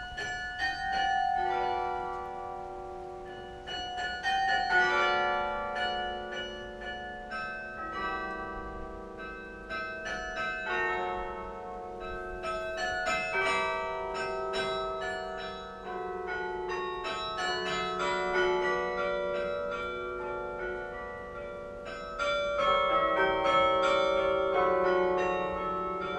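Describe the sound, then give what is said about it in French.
The carillon bells of the Douai belfry ring out a continuous melody, many bright bell strikes overlapping with long, shimmering decays, loud and steady throughout. “Dans le cadre de la série radiophonique « Paroles de Beffroi », c'était « Le Beffroi de Douai, un géant de pierre et de son ».”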